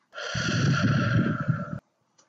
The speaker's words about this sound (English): And breathe in.